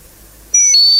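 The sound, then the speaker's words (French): High electronic tones from a telephone as a number is dialed: near silence, then a steady bright beep begins midway and shifts to a second pitch, ringing on to the end. “Je compose le numéro, madame.”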